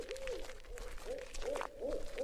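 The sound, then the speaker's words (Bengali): Owls hoot at night in a series of soft, wavering mid-pitched calls, each brief and tremulous, repeating at short intervals over faint background hiss. “মাঝে মাঝেই প্যাঁচাদের ডাক শোনা যাচ্ছে”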